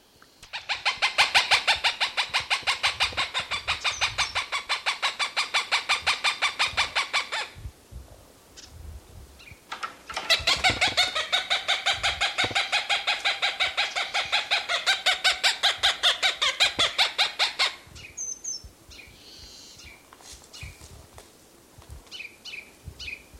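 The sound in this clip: Cooper's hawk calling: two long bouts of rapid, evenly spaced harsh cackling notes separated by a short pause, followed by a few scattered fainter calls.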